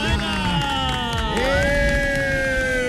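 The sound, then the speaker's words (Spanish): A live show audience cheers, a loud crowd roar with high shouting voices rising and falling over the noise throughout. “Un aplauso, por favor, para Herrera.”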